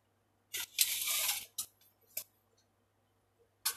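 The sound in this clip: A measuring tape is pulled out with a quiet rasp lasting about a second, followed by a few sharp, light clicks spaced apart. No talking is heard.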